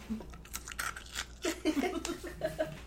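Someone chews a crunchy cheese-flavoured corn snack, a dense puffed piece like popcorn, close up. Many quiet, crisp crunches and bites follow one another in an irregular rhythm.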